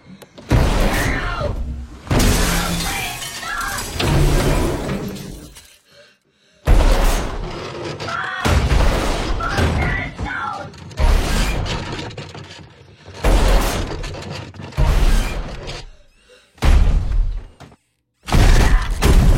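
A wooden closet toppling over and crashing, heard as a series of loud, dense bursts of banging, thudding and clattering. Several long impact sequences are separated by brief pauses.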